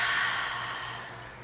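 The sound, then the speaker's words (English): A single long, deep exhale during a guided meditation: a soft, steady, breathy rush that slowly fades out, heard alone with no talking. “let's take a nice deep breath and release.”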